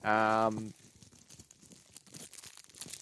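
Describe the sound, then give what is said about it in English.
Crinkling and tearing of a treat-size plastic packet of Haribo strawberry gummy sweets, opened at the corner: a brief voice at the start, then many sharp, dry, irregular crackles and rips. “we're going to crack open some Haribo. Giant Straubs Gone Mini.”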